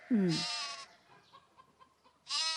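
Young sheep bleating, a quavering cry at the start and a second bleat at the end, with faint low sounds between.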